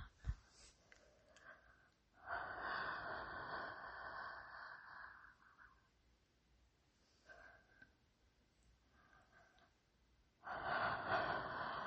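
Slow breathing with long, drawn-out exhales that carry a soft breathy hiss. Two extended breaths stand out against quieter breathing in between, all faint.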